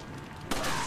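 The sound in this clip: A gunshot in a video game, fired at an axe-wielding enemy. After a low background rumble, a single sharp, loud burst hits midway and rings on to the end.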